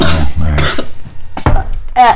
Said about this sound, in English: Quit coughing and you're heavy-handed.